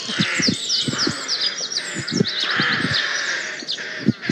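Blue tits peck, pluck and pull chunks from a costly outdoor microphone's furry cover, making many soft thumps and scratchy tugs under busy, high chirping calls.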